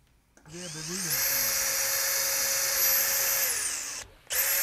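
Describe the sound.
A power screwdriver drives a reclaimed-wood terrace plank into the facade of a waste-management association's administration building in Kempten: a steady high whine rises quickly, holds for about three seconds, cuts out briefly, then starts again.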